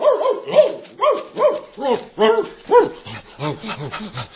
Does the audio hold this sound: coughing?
no